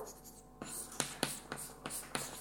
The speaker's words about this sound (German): Ich schreibe dazu erstmal ein bisschen Text auf.